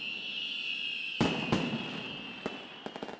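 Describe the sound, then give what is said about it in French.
Fireworks going off at a display: a steady high hiss and crackle runs throughout, broken by several sharp bangs, with a rapid cluster of pops at the end. “Très beau feu d'artifice.”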